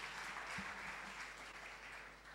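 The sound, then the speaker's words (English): An audience applauds a speaker taking the podium at a student competition with judges, giving steady, sustained clapping that stays fairly faint and even across the whole stretch, with no voices. “Welcome him warmly with a round of applause.”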